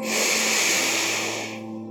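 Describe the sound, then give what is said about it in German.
A single long breath is pushed out through the right nostril during yoga alternate-nostril breathing, a loud, steady airy hiss that fades at the end. “Und löst das Bander, atme rechts aus. Rechts einatmen.”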